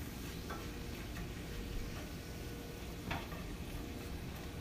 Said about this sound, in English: So the onion is in. Now we'll give that a good stir.